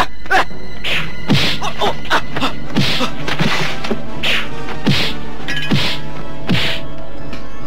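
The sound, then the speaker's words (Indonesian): Punches landing on a body during a fight in a torture chamber: many loud, heavy thwacks and thuds in quick, irregular succession across the whole stretch. “Pukulanku amblas seperti memukul kapuk. Apa yang terjadi sebenarnya?”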